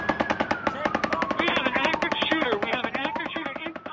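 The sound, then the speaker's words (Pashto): Rapid automatic gunfire at an outdoor music gathering in Las Vegas, a fast, even stream of sharp cracks running without pause throughout, with voices rising among the shots. “د لاس ویګاس په ښار کې خلک د محلي موسیقي اوریدو ته راټول شي ول چې یو ناڅاپه ډزې وشولې.”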